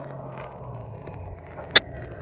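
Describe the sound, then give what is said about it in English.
A hearse drives along a road out of the city toward a cemetery, its engine a low, steady rumble with one sharp, brief click near the end. “The hearse has left the city behind and is nearing Woodcrest Cemetery.”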